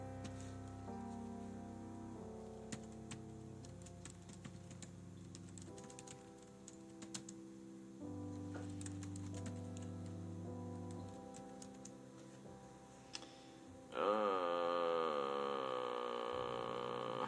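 Typing text on a computer keyboard: soft, irregular clicks and taps scattered over a faint bed of sustained, quiet music, with a warbling tone entering near the end.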